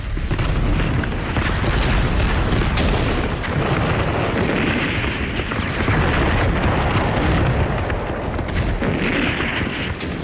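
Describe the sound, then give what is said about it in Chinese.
Artillery barrage from more than a hundred cannons of various sizes opening fire together in battle, a dense, unbroken roar of overlapping booms and rumbles, loud and steady throughout with no voices. “大大小小的炮100多门，统统架上。攻击令一发，立即开火。”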